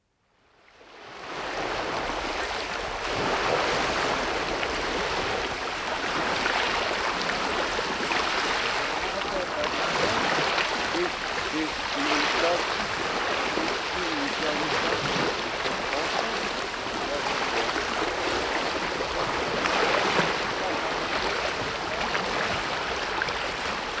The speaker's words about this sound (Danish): Sorte bølger med et hvidt perleagtigt skum begynder at slå ind over iskanten.